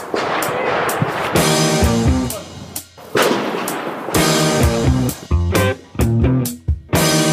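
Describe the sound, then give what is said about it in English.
Gunfire at the Carter's Country rifle range on New Year's Day: many sharp, loud shots crack in irregular succession, some close together, with ringing tails between the bursts. “Checking in at the Carter's Country local rifle range. Sounds of freedom.”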